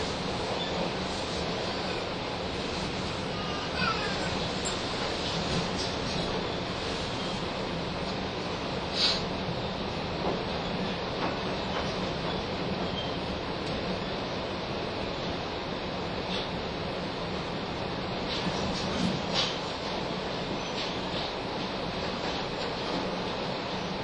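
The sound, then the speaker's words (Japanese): A steady, dense rumble fills the ride aboard the Blue Train Akatsuki sleeper train as it approaches Nagasaki. The roar stays even throughout, broken only by a few faint clicks and knocks. “本日はブルートレイン、暁号にご乗車いただきまして、誠にありがとうございました。あと3分ほどで終点の長崎でございます。”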